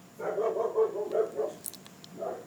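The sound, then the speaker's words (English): A dog barks in a quick cluster of several rough, mid-pitched barks, then one more after a short pause, moderately loud over a quiet background with no talking. “Sorry about the dog.”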